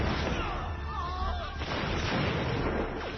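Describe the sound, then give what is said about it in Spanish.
British soldiers fire Broadbeck muskets at colonists during an American Revolutionary War battle, a dense, continuous wash of gunfire with rumbling reports and crackling shots that runs throughout at a fairly low level. “Los hombres del rey, los ingleses, no tienen ningún miramiento. Preparan sus fusiles Broadbeck y disparan contra los colonos.”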